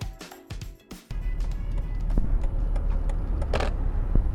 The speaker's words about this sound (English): I'm here driving to downtown DC.